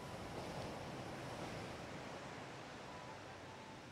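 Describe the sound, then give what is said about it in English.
Gentle sea waves lap on a beach as the tide ebbs and flows. The soft, steady wash of surf carries on without distinct breaks and stays fairly faint. “the sound of the ebb and flow of the tide as it caresses the beach”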